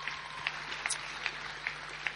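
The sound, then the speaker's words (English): Soft applause from an audience at a dinner event, a quiet, even wash of clapping with a few sharper peaks recurring at regular intervals. “Can you please give her one more round of applause, and to Angelo too.”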